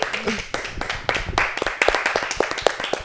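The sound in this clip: A quick, uneven round of applause from a few people, with sharp hand claps landing in irregular bursts of varying loudness.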